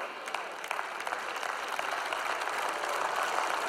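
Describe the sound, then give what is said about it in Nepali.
Audience applause in agreement: a dense, steady wash of many hands clapping, fairly quiet and even throughout, with no distinct voices. “तपाईँले मलाई ताली बजाएर सहमति जनाएको मलाई एकदमै मनपर्छ।”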